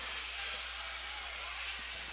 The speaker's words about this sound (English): sure enough, this time two dribbles, around the back, one dribble, free throw is up, free throw is no good.